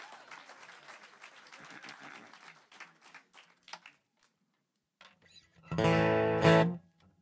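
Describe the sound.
Audience applause welcoming Jim Lauderdale on stage: clapping thins out over several seconds, then a short, loud sustained tone follows.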